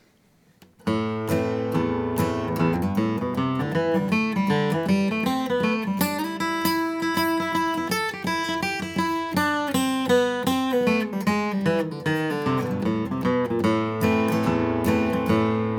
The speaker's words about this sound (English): but instead of strumming prior to using the lick, you'd be playing a steady stream of notes. That would sound like this.